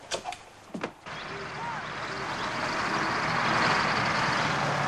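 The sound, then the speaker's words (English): An open-topped car arriving and turning in at a gate. A few sharp clicks come first, then steady engine noise that swells gradually as the car draws in. “An open-topped car brings Margaret, Henry and Dolly to Howard's End. It turns in at the gate.”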